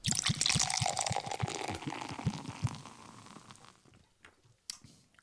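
Liquid pours from a freshly opened frozen drink in a steady gurgling stream that gradually thins and fades, followed by a short sharp sound near the end.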